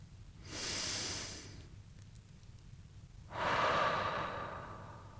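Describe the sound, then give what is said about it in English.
Deep breathing: two long, airy breath sounds, each swelling and fading, separated by a short quiet gap, with no voices. “I invite you to take a breath.”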